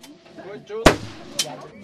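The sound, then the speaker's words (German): Two sharp shots from an assault rifle or carbine fired lying prone on mats at a shooting range, loud cracks with quick decay about half a second apart, with voices faintly underneath. “Da sind sie auf den Matten gelegen, die Herren und auch Damen, Behördenvertreter, und haben mit Sturmgewehr oder Karabiner je 8 Schüsse auf Zielscheiben abgegeben.”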